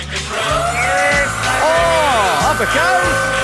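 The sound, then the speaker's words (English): A Crown forklift radio jingle plays, with sung, gliding voices over a steady pulsing low beat, loud and continuous throughout. “In studio, sitting at the wheel. Hard hat on of the Crown Forklift as we play the jingle.”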